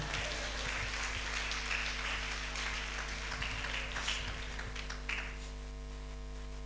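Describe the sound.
An audience applauding during a church service: steady, continuous clapping that stays fairly quiet throughout, with a low hum underneath.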